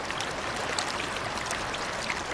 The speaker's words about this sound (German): Mit Wucht schieben sich die Fluten der jungen Kander durch das breite Geröllbett.